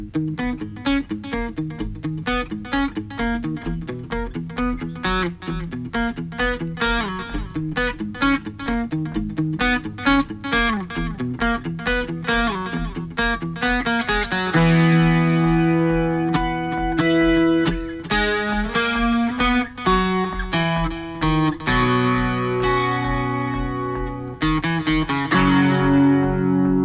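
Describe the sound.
Live chords from a singer's new single, played as a preview: a steady, rhythmic chordal pattern with a slightly distorted, effected tone, growing fuller and louder about halfway through and continuing with no voices.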